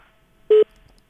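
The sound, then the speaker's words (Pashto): A telephone line tone on a radio call-in show after the caller's line drops: one brief, steady electronic beep, loud against near silence on either side. “متاسفانه چې تلفون مقطع شو”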